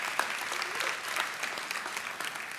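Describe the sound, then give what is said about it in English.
A church audience claps for parents and guardians: continuous, fairly faint applause of many hands, evenly spread with no distinct pauses. “Can we make some noise for our parents and our guardians?”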